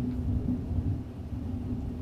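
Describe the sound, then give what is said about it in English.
Thunder rolls as a low, continuous rumble, fairly faint and steady throughout, with no voices over it. “We love the thunder. We pause to see if you'll hear the thunder.”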